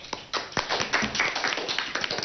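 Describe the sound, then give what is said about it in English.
A quiz contestant in an Indian general knowledge quiz gets a round of applause: a few crisp, sparse handclaps in an uneven rhythm, fairly soft and brief. “Let us all give a big round of applause for Divich.”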